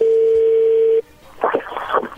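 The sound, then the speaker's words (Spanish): A telephone number is dialed to place a call: a steady, loud dial tone holds for about a second, then cuts off and gives way to a short, irregular run of tones. “vamos a marcarle a Leti y vamos a ver qué sucede”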